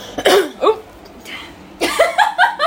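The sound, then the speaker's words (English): A woman coughs a few times in short, harsh bursts, followed by a quicker run of choppy, broken bursts near the end. “She coughed on me twice now.”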